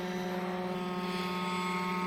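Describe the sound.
A helicopter drone hovers in automatic stationary mode, giving off a steady, fairly faint mechanical whine and rotor hum. The droning tone holds an even pitch throughout, with no voices.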